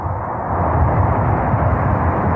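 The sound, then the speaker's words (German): The rocket carrying the Progress MS-34 cargo spacecraft fires its main engines at launch from Baikonur, a deep, dense, continuous roar that holds loud and steady throughout. “second umbilical retracting. We have a go for engine start. We have main engine start.”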